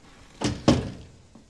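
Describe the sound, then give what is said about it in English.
A door is opened with two dull thunks in quick succession, followed by a fainter third bump, all fairly quiet. “She takes a deep breath, then opens the door.”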